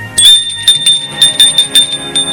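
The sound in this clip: A doorbell rings at a family home in a quick series of bright, metallic chimes, each short ring overlapping the next at a fairly loud, even level with no voices.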